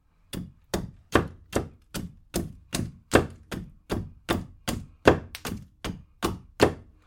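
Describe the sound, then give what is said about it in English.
An axe chops through larch wood and into a chopping block as a cleaved piece is cleaned up, delivering many loud, evenly spaced hollow thunks in a steady rhythm with no talking. “And the sound you can hear is the axe chopping through the larch wood and then into the chopping block that I'm using.”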